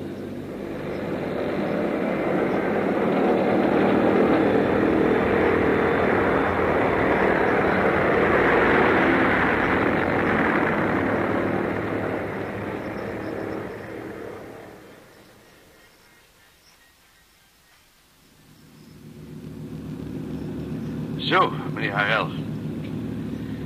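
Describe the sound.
Airplane engines starting for takeoff: a broad roar swells and holds for about fifteen seconds, dips to a low rumble, then picks up again with a couple of brief high squeals.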